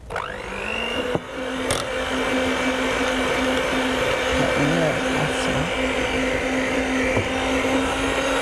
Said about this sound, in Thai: สักครู่นะคะ ยังไม่มีไฟ ค่ะเดี๋ยวใช้ตัวนี้ช่วยนะคะเครื่องผสม